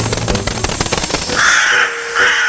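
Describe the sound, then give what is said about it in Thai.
A flock of crows cawing, with two loud, harsh, drawn-out caws near the end after a rustling stretch. “ฝูงกาได้กลับมาจากหากินเห็นลูกของตนและไข่ของตนหายไปก็ตกใจเที่ยวค้นหากันให้วุ่นวาย”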